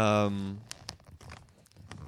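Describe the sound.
Someone crunches on a crunchy holiday spice snack, taking a few crisp, sharp bites just after a brief spoken word.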